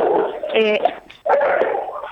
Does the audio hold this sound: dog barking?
yes